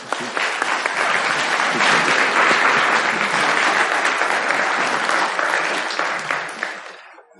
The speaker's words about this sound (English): Well, would you give Tina and Pastor Gaylord a warm welcome?